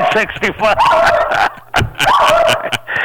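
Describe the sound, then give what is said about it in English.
A Havanese dog barks excitedly in a rapid string of sharp yips and whiny barks, loud and agitated, with people talking over it. “when you mention neck to my dog, she thinks it's neck bones. She went crazy. You hear my dog? I do. What kind of dog do you have? I have a Havanese.”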